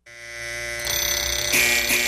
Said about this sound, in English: That's your snooze alarm.